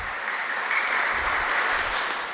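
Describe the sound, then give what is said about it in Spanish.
Audience applause during a church sermon about Abraham, a continuous patter of many hands at moderate loudness that stays even from start to finish, with no voices on top. “Un aplauso a Abraham, ¿eh?”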